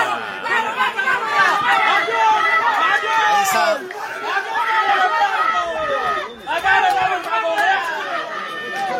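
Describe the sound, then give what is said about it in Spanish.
Uproar from Constructores football supporters in the stands after a penalty and red card, a dense, continuous roar of many voices with speech running over it. “Algarabía. El público de Constructores desde las tribunas, por supuesto, en este momento.”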